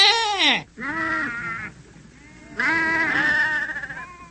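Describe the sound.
Sheep from a shepherd's flock of about a hundred bleat loudly three times. The first bleat drops in pitch, the second is short and nasal, and the last is long and quavering.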